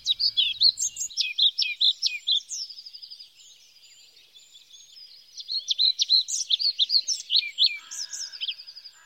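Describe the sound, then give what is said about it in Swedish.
A pied flycatcher sings in spring, two runs of rapid, high, sweet chirping notes separated by a brief quieter gap, with no talk. “Svartvita flugsnapparen är också en fågel som hör vår och försommar till. Sätter man upp holkar får man den lätt som hyresgäst. Och visst sjunger den vackert.”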